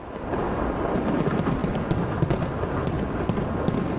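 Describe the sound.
New Year 2024 fireworks explode over the Brandenburg Gate in Berlin: a continuous roaring crackle packed with many sharp pops and bangs throughout, with no clear talk.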